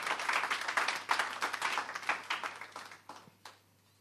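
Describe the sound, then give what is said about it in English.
An audience claps their hands in praise during a church service. Dense, lively clapping holds steady, then thins to a few scattered claps near the end. “Clap your hands and give Jesus praise.”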